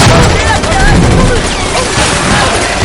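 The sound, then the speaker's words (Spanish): Dense, loud gunfire from an action-adventure film as soldiers shoot at a box of formaldehyde, a continuous barrage of overlapping shots and booms with no break. “Disparan a una caja de formaldehído y algunos soldados arden.”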